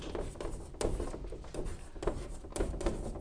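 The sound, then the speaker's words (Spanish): Someone writes on a blackboard in a classroom, making a series of short scraping and tapping strokes in an uneven rhythm. “Cada semana yo escribo esto en la pizarra.”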